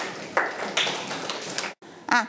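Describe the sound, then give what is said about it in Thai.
Students clapping for their classmates in a classroom: dense, steady clapping that stops abruptly, then a brief burst of voice follows. “ปรบมือให้กับเพื่อนๆค่ะ”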